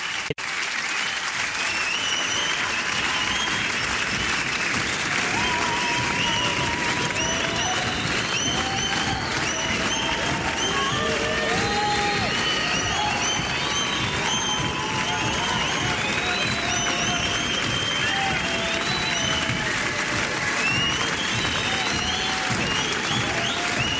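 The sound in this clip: A concert audience in the dark at Radio France's Studio 104 applauds for an encore: dense, steady clapping with cheers mixed in, holding at an even loudness for the whole stretch.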